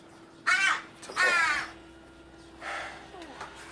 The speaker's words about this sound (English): A shadow of a Venetian blind moves as a crow flies up.